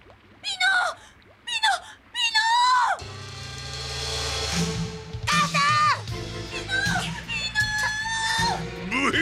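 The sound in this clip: A person screaming, several shrill, wavering cries that rise and fall in pitch, followed by a dense, sustained tonal backing with further high cries over it.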